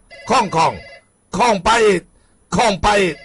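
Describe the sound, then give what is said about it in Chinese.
A telephone rings in three double bursts, each pair of bright, bell-like trills separated by short silences, loud and alone. “电话”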